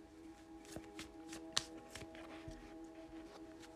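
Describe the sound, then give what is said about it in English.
A tarot card is drawn from the deck, giving a few soft papery taps and slides, with one sharper snap near the middle, over a steady low tonal hum. “Next card out, we have the Page of Wands.”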